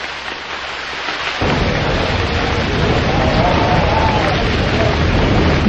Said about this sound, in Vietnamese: ngoài trời rét như cắt ruột, mưa rơi rã rít, từng cơn gió bấc rít lên nghe ghê hồn.